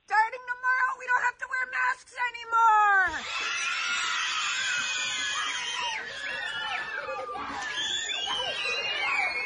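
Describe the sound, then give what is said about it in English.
High-pitched squealing and screaming of schoolchildren cheering with joy in an elementary school classroom in Las Vegas, Nevada, after a teacher's announcement. A brief voice comes first, then a loud, sustained burst of shrill squeals and overlapping shouts. “high pitched squealing of absolute joy. The kids being told they don't have to wear masks anymore.”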